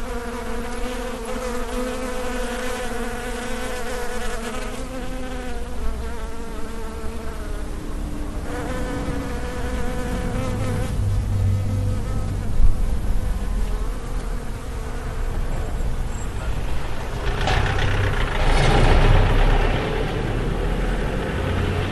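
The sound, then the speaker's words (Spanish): Bees buzzing in a natural outdoor field recording, a dense, steady drone of overlapping insect hums that shift slightly in pitch, joined later by a low rumble of passing vehicles that swells toward the end. “toca escuchar una grabación de campo natural, en concreto de unas abejas”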